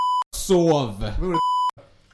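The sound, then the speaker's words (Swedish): Electronic censor bleep, a steady high tone heard twice, with a short burst of talk between the two beeps. The bleeps mask spoken words in a Swedish conversation. “Vi pipar inte för att det ska vara pinsamt för honom, utan vi pipar allt.”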